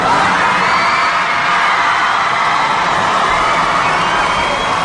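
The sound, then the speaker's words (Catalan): About 1,500 children shout and cheer excitedly in the square of the Montserrat abbey. The dense, loud roar of voices holds steady for the whole clip. “I amb aquests crits d'emoció de 1.500 nens que hi havia, ha entrat dins l'abadia.”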